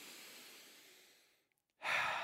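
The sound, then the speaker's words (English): A group of people taking a deep breath together: a long, airy exhale that fades away, a brief silence, then another loud, full breath. “Two, everyone have a deep breath.”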